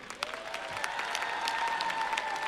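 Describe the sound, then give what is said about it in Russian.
Audience applause at a charity festival, fairly faint but steady clapping that keeps an even density for a couple of seconds. “Это заслуживает аплодисментов.”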